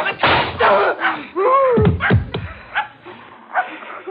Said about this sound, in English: The gun went off in his face.